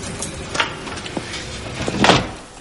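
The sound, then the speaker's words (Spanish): A door is opened and then closed again: a few dull wooden knocks and thuds with handle and latch noise, ending in a louder closing bump. “Abre la puerta y se queda fuera unos instantes sin decidirse a entrar. Entonces cierra de nuevo y se marcha.”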